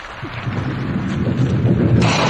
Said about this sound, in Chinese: 这时候，雷声隆隆，大雨滂沱。